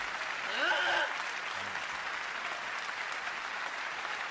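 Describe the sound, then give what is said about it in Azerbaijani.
An audience applauds a speaker with sustained, even clapping at a moderate level. A voice briefly rises over it near the start, then the clapping continues alone. “Təşəkkür. Alqışlarınıza qurban. Sağ olun, dayanın. Əyləşin.”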